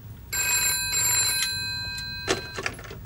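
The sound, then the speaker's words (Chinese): A telephone bell rings in one bright, metallic burst lasting about a second, followed by a few brief clicks and knocks, with no voices. “电话。”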